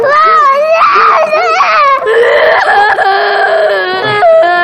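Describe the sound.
An infant cries loudly and without a break. The wailing is strained, its pitch wavers up and down, and it is broken by short sobbing catches.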